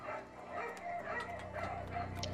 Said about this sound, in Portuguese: E novamente os cachorros começam a latir.